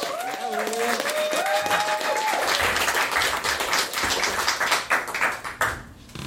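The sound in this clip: Audience applause at a storytelling show as a performer is welcomed to the stage, a dense burst of clapping with voices mixed in, thinning and tapering off toward the end.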